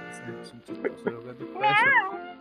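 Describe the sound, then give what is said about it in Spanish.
A human voice imitates cats meowing in the middle of the street with a few drawn-out, nasal cries. The final cry is the loudest and wavers up and down in pitch. “veía a dos, gatos en la mitad de la calle llamando a Raúl, así sin que les importe nada”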